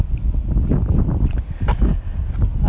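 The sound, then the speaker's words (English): Strong wind blows straight into a microphone outdoors, a continuous low rumbling roar that surges and dips with no speech. “there's a really strong and strong wind. There's definitely a wind coming straight at me and at the microphone.”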